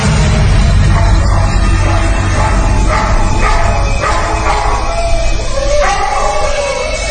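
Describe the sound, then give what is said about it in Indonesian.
Long howl of a dog at night, a loud, sustained wailing tone that holds and wavers in a siren-like way throughout. “suara anjing tiba-tiba saja terdengar melolong panjang, membuatku yang tadinya mengantuk tiba-tiba saja terjaga.”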